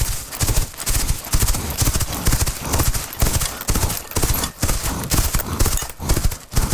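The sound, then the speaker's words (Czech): Horse hooves beat out a steady clip-clop rhythm from a horse in motion, with many even, closely spaced strikes that continue without a break from start to finish. “je kůň v pohybu. Jeho údery kopyt mají uhrančivý rytmus.”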